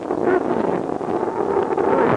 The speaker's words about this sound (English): Wind's cutting across the valley. As fast as we'd shovel snow away, it'd drift back again.